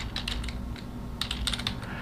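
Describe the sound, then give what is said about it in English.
Typing on a computer keyboard produces quick, irregular bursts of crisp key clicks over a low, steady hum. “I need to type furiously.”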